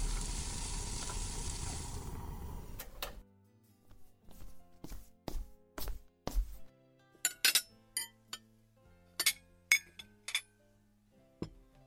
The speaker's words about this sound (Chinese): 那我去给你弄点吃的吧，咱们先吃点东西。